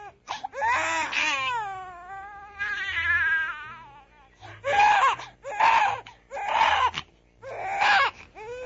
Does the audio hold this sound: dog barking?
no